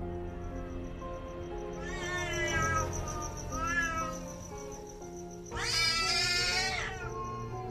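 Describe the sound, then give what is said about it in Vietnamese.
A black cat yowls during an attack beside a New Year's Eve offering tray, letting out drawn-out, wavering cries in two loud bursts over a steady background hum. “Con mèo bị tấn công bất ngờ, bỗng nhiên dựng lông lên, ngoao ngoao mấy tiếng. Rồi sau đó nó gào lên, lao thẳng đến mâm cúng trừ tịch.”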